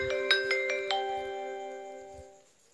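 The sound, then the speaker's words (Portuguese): A phone ringtone playing a few quick bell-like chiming notes, then a sustained ringing tone that slowly fades out. “Espere. Que toque é esse, gente?”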